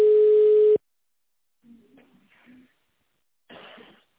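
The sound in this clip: A telephone tone sounds while a call waits to connect: one steady, mid-pitched beep lasting under a second, then silence broken by faint, brief line noises and murmur.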